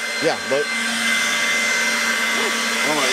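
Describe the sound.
A hair dryer runs on its low setting, giving a steady airy whoosh with a faint motor hum from start to finish. Voices speak briefly over it at the beginning and again near the end.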